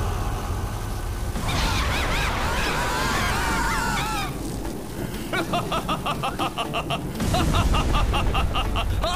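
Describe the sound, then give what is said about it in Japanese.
Lightning Zanba, a lightning-element area spell cast by a mid-level mage, crackles as fizzing, warbling electric zaps, then turns into a rapid train of buzzing pulses and ends in a heavier roaring surge. “中級色魔導士、雷属性範囲魔法。ライトニングザンパ”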